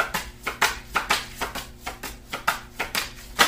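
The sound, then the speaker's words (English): Tarot cards spilling out of a deck during a reading: many light, crisp slaps and rustles in a fairly steady rhythm, with no voices. “Okay, all of these cards are just falling out. And I guess we're going to take them.”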